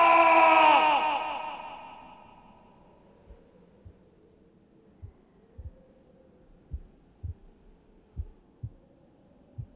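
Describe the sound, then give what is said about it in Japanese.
A heartbeat starts beating again in an audio drama. A loud, droning tonal swell fades away, then low, dull thumps return in paired lub-dub beats that grow steadily stronger and more regular. “鼓動が息を吹き返し、動脈が生命のビートを刻む。”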